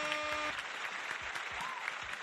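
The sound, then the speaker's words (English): Applause fills a room of people as dense, steady clapping at a fairly low level. A voice is briefly heard at the start. “So, number one, give yourself a round of applause. Give yourself a fucking round of applause.”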